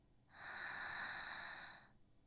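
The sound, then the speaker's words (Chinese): A single slow, deep inhalation during a guided breathing exercise, a soft airy hiss that swells, holds for about a second and a half, then fades, quiet and alone. “很好，再一次吸，”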